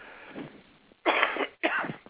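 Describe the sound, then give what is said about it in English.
Coughing in a studio: a soft throat rasp leads into two loud, harsh coughs in quick succession. “Sorry, we all have a little bit of that spring cough here in the studio.”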